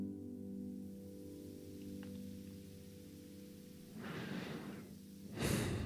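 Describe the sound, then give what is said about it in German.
Deep breath drawn in through the nose and let out again: a soft, airy inhale of under a second, then a brief louder exhale, over a faint steady low tonal background. “Und jetzt nimm noch einmal einen tiefen Atemzug durch die Nase ein, in deinen Bauchraum und lass mit dem Ausatmen jegliche Anspannung raus.”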